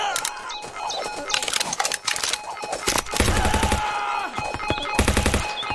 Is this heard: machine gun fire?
yes